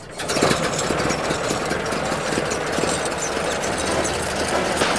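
A machine engine with freshly oiled gears runs after its fuses are checked and its hood closed, giving a loud, rough, continuous mechanical drone with a steady rattling pulse throughout.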